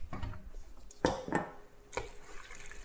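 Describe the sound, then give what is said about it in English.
Cooked pesto pasta is moved into a serving bowl with clinks and knocks of a utensil against dishware. A few sharp strikes and a short scrape stand out over quieter, wet shuffling sounds. “Let me just put this in a bowl to serve.”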